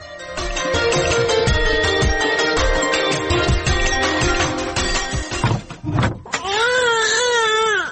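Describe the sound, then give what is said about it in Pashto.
A boy cries in loud, wavering wails that rise and fall in pitch toward the end, following a dense, steady stretch of layered background sound. “هلته هلک ژاړي او ته دلته په غوجله کې ناست یې”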